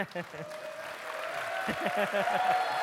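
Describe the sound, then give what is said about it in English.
An audience claps in another room. The steady clapping swells and stays continuous beneath a man's speech, which comes in short stretches. “Man, they clap a lot over there.”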